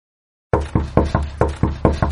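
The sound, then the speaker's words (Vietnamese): Knocking on a bedroom door from outside: eight firm, evenly spaced knocks at a quick steady rhythm, fairly loud and alone, starting after half a second of silence. “Vừa lúc đó, ngoài cửa truyền đến vài tiếng đập cửa.”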